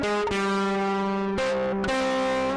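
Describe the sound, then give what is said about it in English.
Distorted electric guitar-style tone played through a distortion pedal, holding a few loud sustained notes with buzzing overtones. The pitch shifts abruptly between notes. “sort of like a distortion pedal.”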